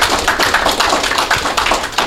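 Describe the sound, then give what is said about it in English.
An audience applauds as a speaker is welcomed to give a talk about selling on Amazon. The clapping is dense and steady and continues throughout with no voices over it. “So please put your hands together and welcome Jeff Schick.”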